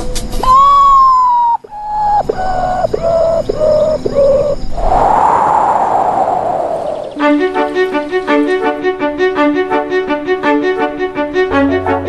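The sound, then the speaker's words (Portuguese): Mournful call of the common potoo (urutau), the 'ghost bird', as a series of loud whistled notes stepping down in pitch, followed by a burst of rushing noise and then music. “Na língua tupi, essa é a ave fantasma, também conhecida como mãe da lua. É o urutau, mestre dos disfarces.”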